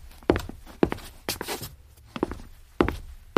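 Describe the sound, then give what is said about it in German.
Footsteps of someone pacing back and forth while thinking, several firm, evenly spaced steps with slight scuffs between them. “Könnten Sie nicht mal einen Moment still sitzen? Wenn ich denke, muss ich laufen.”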